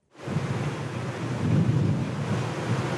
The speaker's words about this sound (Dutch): Het waait hard bij dit weerstation.